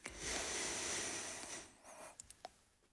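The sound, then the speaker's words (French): One deep, slow inhale during a relaxation breathing exercise makes a soft, airy rush that lasts over a second and a half. The breath fades out, and a few faint clicks follow. “Une dernière. On inspire.”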